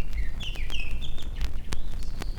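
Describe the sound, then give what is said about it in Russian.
A thrush sings from the top of a tall elm, giving several clear whistled phrases of high, sliding notes over a faint low rumble. “На вершине высокого ильма поет сизый дрозд.”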